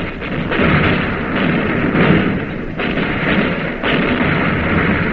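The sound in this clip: Naval gunfire as shells are fired and strike enemy cruisers: a dense, sustained roaring rumble that stays loud throughout, with a few short dips and surges rather than clearly separate blasts.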